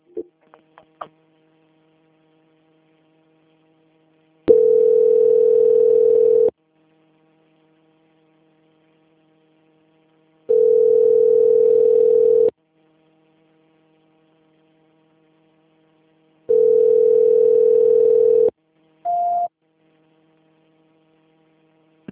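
Telephone line tone while a bank call is being transferred: three long, steady mid-pitched beeps of about two seconds each, separated by silence, then a short higher beep, with a few faint clicks at the start.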